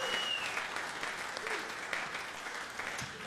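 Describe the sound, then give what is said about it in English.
An audience applauding a sound engineer at a live show with a steady, dense wash of clapping that lasts throughout. “I bet a big, big hand for Myron.”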